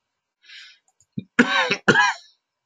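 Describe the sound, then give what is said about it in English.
A person with a long-standing chronic cough coughs twice, in two harsh, loud bursts in quick succession. A short breathy hiss comes before the coughs. “Sorry about this cough. I've only had it for 50 years or more now.”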